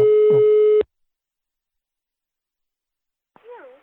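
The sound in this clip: A steady telephone line tone while a call is being placed sounds for under a second, then cuts off into silence. A short voice sound follows near the end.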